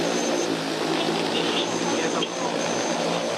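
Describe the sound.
An agricultural crop-spraying drone in flight gives a continuous, loud, buzzing whine with a dense rushing noise, holding steady throughout.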